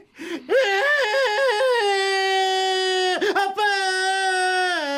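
A child cries in a domestic scene, with loud, pulsing wails that step up and down in pitch at first. After a brief catch of breath comes a long, held, high-pitched wail.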